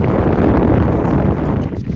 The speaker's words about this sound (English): Wind, isn't it?